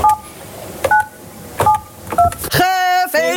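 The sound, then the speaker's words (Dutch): Telephone keypad tones as school mentors in Vlissingen dial students to give exam results: a few short, spaced beeps, then a longer, buzzy tone. “het Scheldemond College in Vlissingen, die bezig waren met hun rondje bellen”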